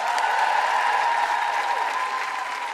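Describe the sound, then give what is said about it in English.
Dense audience applause at a Fringe comedy show welcoming a comedian to the stage: steady, loud clapping throughout that eases slightly toward the end. “Please put your hands together and make excited woo-hooing noises for first-time guilty feminist.”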